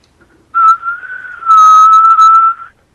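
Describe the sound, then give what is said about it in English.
A person whistles one loud, sustained tone, held steady for about two seconds with slight wavering, alone and without other sounds. “Whistle 2600 hertz so we know who you are.”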